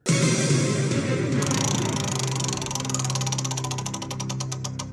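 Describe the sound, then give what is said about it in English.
A game wheel is spun to pick a number, giving off a whirring rattle over a steady hum. Its rapid ticking clicks gradually slow and spread apart as it winds down. “All right, let's spin that wheel.”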